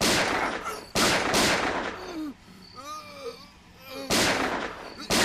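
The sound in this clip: Gunshots crack out in four loud, sharp blasts, two close together at the start and two near the end, with a strained, wailing voice rising and falling in the quieter gap between them.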